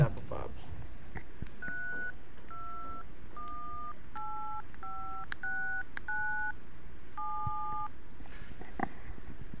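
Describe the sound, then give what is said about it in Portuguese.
A telephone number is dialed as a string of about eight short two-note keypad tones, spaced unevenly with brief gaps between them. Faint talk can be heard in the background. “Dá uma ligada pra ele aí.”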